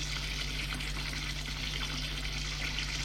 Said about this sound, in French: Il prend une douche.